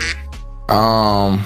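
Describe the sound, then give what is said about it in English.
A duck quack sound effect: a brief nasal blip, then one long, loud, buzzy quack with a rich, reedy tone. “quack. I have that one under my favorites.”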